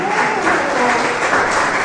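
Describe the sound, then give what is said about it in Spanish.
A church audience claps in applause for their ministry's 12th anniversary, a steady, dense patter of many hands that stays even and fairly loud across the short stretch. “¿Alguien le puede dar un aplauso por 12 años? 12 años, hermanos.”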